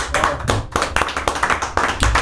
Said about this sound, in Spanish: Yo creo que me merezco un aplauso.